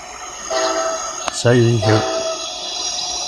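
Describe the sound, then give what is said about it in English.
Passing train sounding its horn: a long, loud, harmonic horn blast rises over a steady rail rumble, with a fainter tone just before it. “Sorry for the train noise.”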